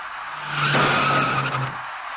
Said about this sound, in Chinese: 转眼过后，出租车的前部撞上了前车的尾部，一起两车追撞的事故就发生了。